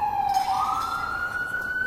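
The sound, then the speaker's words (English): A siren wails outside, one steady electronic tone that climbs in pitch partway through and then holds high, sounding alone with no talk. “I'm sorry, I'm outside and you hear the sirens.”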